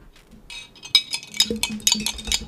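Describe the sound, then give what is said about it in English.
Straws stirring in drinks give a run of many light, irregular clinks and taps, fairly faint and heard alone without talk. “We're stirring our straws, people. We are stirring it's our straws.”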